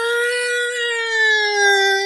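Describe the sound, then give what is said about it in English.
A human voice imitates an old police car siren with a single sustained, tonal "woo" wail, held steady for about two seconds and sagging slightly in pitch toward the end, heard alone. “that was the first police car.”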